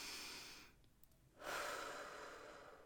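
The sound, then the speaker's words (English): Deep, full breaths taken slowly and quietly, one long airy breath, a short lull, then another long breath, faint and with no talk over them. “And all we're gonna do is take 5 nice, full breaths. That's all we're gonna do. Just take those nice,”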